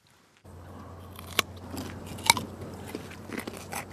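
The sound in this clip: Crunchy bites into fresh carrots as they are tasted at a carrot producer. A few faint, crisp snaps and crackles stand out, one sharper crunch among them, over a low steady hum.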